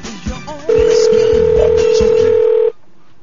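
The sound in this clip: A telephone ringback tone on an outgoing call to a security company: one long, steady tone lasting about two seconds. People talk just before it and beneath it.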